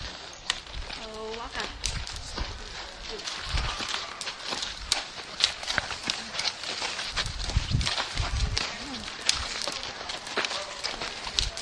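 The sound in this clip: A horse walks with soft clip-clop hoofbeats beneath people talking. A continuous noisy, rain-like hiss fills the background.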